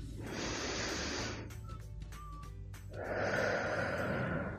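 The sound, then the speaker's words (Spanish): Slow breathing during a guided breathing exercise in a Spanish-language movement class: two long, airy breaths alone, each a steady rush of air lasting over a second, separated by a quiet pause. “Muy bien, vamos a respirar tres veces.”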